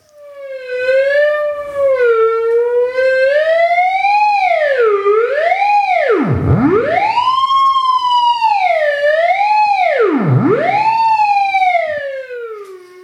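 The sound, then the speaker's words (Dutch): A theremin plays alone: a loud, pure, sustained electronic tone with vibrato glides smoothly up and down and swoops sharply low twice before rising again. “Dit is het geluid van een theremin.”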